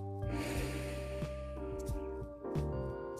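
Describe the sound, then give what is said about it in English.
A person takes a deep breath in, an audible, fairly sharp inhale with a snort-like edge, heard over a soft, sustained tonal background. “Take a deep breath in”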